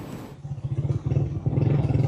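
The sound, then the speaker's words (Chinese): Engine drone of a motorcycle riding along a road toward an earthquake-damaged area in La Guaira state. A low, pulsing rumble continues throughout and grows slightly louder toward the end. “27号，总台记者乘坐摩托车向着拉瓜伊拉州行进”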